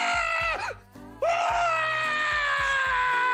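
A person screams loudly in a long, strained, high-pitched cry that breaks off briefly, then resumes at full force and holds steady to the end.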